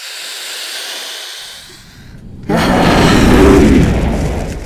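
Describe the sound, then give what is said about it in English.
Dragon breathing fire indoors: a soft hissing rush fades almost to nothing, then a sudden loud roaring blast of flame bursts out and holds, swelling before easing slightly. “Okay, I don't like to breathe fire indoors, but if it'll help you understand the situation...”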